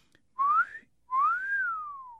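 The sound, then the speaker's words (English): A wolf whistle from a novelty mirror kept in a drawer, set off when the drawer opens. Two clear, loud notes play alone: a short upward swoop, then a longer one that rises and glides down. “Every time I open that drawer, the mirror lets out this wolf whistle”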